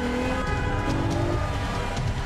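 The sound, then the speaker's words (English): Engine of a Lexus accelerating through dense traffic: a steady, loud motor drone with a low rumble and humming tones that holds throughout. “accelerates through the dense traffic in his commandeered Lexus”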